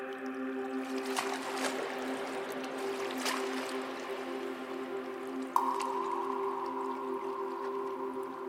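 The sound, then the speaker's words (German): A boat glides through a stalactite cave, giving a faint, steady low hum with a few sharp drips and small splashes breaking through it. “Er steuert das Boot sicher durch einen erneuten Höhleneingang, vorbei an einigen dicken, herabhängenden Tropfsteinen,”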